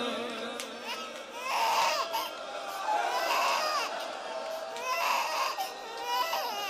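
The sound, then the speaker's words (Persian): A baby cries and wails in a few strained, high-pitched bursts, loud and sustained, with short breaths between them. “بچه وقتی گریه کنه سخت ساکتش کنه. عزیزم آروم”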